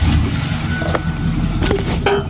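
A truck engine rumbles steadily as people ride inside, a low even drone with a few short knocks on top.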